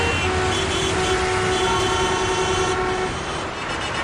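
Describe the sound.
A vehicle horn blares in one long, steady blast over a dense, constant rumble of road traffic during a holiday departure rush, the horn cutting off while the engine drone continues.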